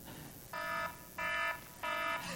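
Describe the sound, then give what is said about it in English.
Electronic alarm warning of danger, sounding three evenly spaced, steady-pitched tonal beeps with a buzzy harmonic edge, each lasting about a third of a second, separated by short gaps of quiet background. “And we have alarms like that to tell us about dangerous situations.”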